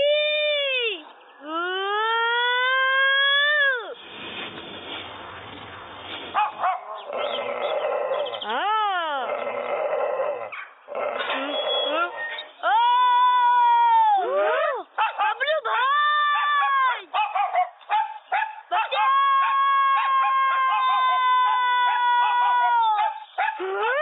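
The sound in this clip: A dog howls in many loud, drawn-out wails that rise and fall, some broken into short yips, while a man also imitates the howling.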